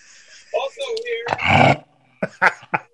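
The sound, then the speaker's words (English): Dog barking and growling: a long, rough, snarling burst, then after a short pause three sharp barks in quick succession, with softer vocal noises before them. “Whose dog is going crazy?”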